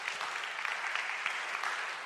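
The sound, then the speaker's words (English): A church audience gives a round of applause: many hands clapping in a soft, steady patter at an even level throughout. “Give yourself a round of applause. Great job.”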